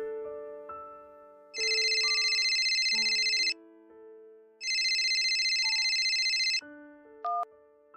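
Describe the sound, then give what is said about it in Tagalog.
A telephone rings with an incoming call: two long, loud electronic ring bursts separated by a brief pause, over soft sustained background music. “Isang gabi sa hindi ko inaasahan ay may tumawag sa amin”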